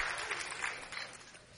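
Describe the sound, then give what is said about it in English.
Applause from women in a church audience during a Father's Day sermon: a soft, steady patter of clapping that runs faintly and unbroken through the whole moment. “Now, ain't nobody clapping but women.”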